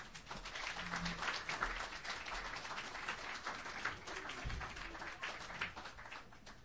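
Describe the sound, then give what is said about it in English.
Audience applause at a Sunday open mic night welcoming a performer to the stage, a steady, even wash of clapping that stays fairly faint throughout. “Please put your hands together for Mike Priest.”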